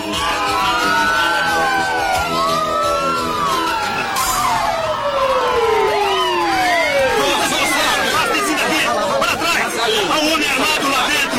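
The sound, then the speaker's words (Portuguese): Ambulance and police car sirens on a road, their loud overlapping wails sweeping up and down continuously, with crowd chatter underneath throughout. “Temos a ambulância e o carro de polícia se aproximando.”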